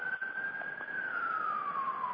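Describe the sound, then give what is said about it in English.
A single emergency vehicle siren wails on a New York street, a steady, fairly faint tone that sustains and then glides slowly downward in pitch without a break. “And we got a siren in the background here. This is pretty common here in New York. About every half an hour you hear a siren.”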